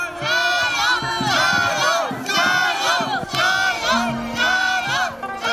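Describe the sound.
A crowd cheers and shouts at the Shangluo dragon boat race on the Dan River during the Dragon Boat Festival, with dozens of boats competing. Loud, sustained massed voices surge in repeated waves.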